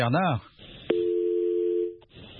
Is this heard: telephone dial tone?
yes